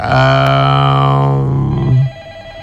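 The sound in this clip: A telephone rings with an incoming call on a call-in program: a loud, steady, harmonic ringing tone with a slight warble sustains for about two seconds, then cuts off.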